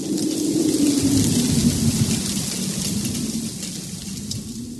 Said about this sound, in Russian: Со двора доносится вой ветра и гул дождя.